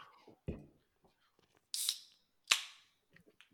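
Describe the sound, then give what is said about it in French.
Beer being opened: a few sharp cracks, each with a short burst of fizzing hiss, fairly faint, with small clicks scattered around them. “ça m'inspire de m'ouvrir une petite bière. Fait que je sais pas si vous en avez une, mais moi j'ouvre la mienne.”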